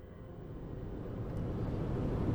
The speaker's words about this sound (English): I am driving northbound on the 101 to Stockton to see Stan and Denise Smart.